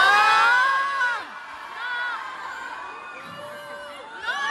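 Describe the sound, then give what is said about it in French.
Spectators at a bullfighting event in Bayonne shout and jeer in overlapping voices. A loud burst of falling-pitched shouts opens, quieter scattered calls follow, and the shouting swells again at the end. “Alors, il y a une partie du public qui dit non. Quand elle dit « Est-ce que vous trouvez ça normal qu'on mette à mort des animaux ?» Et il y en a d'autres qui hubent.”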